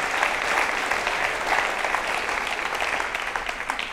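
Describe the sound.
Church audience applauding to welcome a speaker to the pulpit: steady, moderately soft clapping that holds an even density for several seconds without voices.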